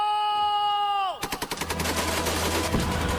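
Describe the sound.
A held, tonal shouted command gives way to rapid gunfire: a fast run of repeated shots that blurs into a dense, continuous rattle.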